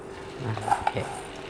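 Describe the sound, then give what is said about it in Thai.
Pork rinds (khaep mu) deep-frying in hot oil give a faint, steady sizzle, broken by a couple of sharp metallic clicks partway through. “อยู่กับชิ้นของตัวแคบหมูนะครับยังมีความร้อนอยู่นะครับเพราะนั้นต้องเผื่อสีด้วยนะครับเผื่อความร้อนนะครับเดี๋ยวเราจะทำการทอดลงไปเยอะๆเลยนะครับทีนี้น้ำมันเราร้อนดีแล้วนะครับ”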